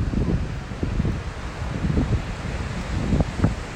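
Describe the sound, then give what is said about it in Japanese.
Strong wind blows over rough surf at Bondi Beach in Sydney during bad weather. A loud, steady roar of gusting wind buffets the microphone, with low thumps and a constant wash of noise and no clear voices. “ちょっと今日風強いですねやっぱ天気悪いんで風も強いし波も荒いのでちょっと波の音がうるさいかもしれないですね”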